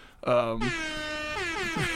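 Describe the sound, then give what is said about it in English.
An air horn sound effect blares in a loud, sustained, brassy blast, its pitch shifting partway through before holding steady to the end. “I think that's like the definition of the time when you need the air horn is Joe Johnson”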